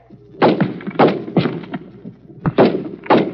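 Rifle shots on a firing range: a few sharp, somewhat muffled reports in an uneven sequence, each a quick thump with a short ragged tail, with a pause before the later ones.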